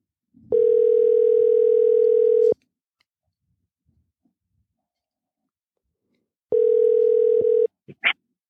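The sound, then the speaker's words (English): Phone call ringing tone heard over a Bluetooth connection: two long, steady, buzzy mid-pitched tones separated by silence, the first about two seconds long, followed by a couple of short clicks. “Let me get his number all dialed up here. Hopefully it sounds all right, but we'll hook up the Bluetooth and give him a ring.”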